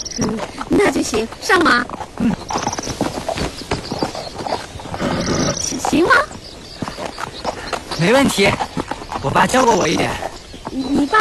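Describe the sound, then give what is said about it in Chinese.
Horses' hooves clip-clopping in a steady run of hollow knocks, heard under people talking. “骑马去啊？不然呢？难道你走着去啊？会骑马吗？”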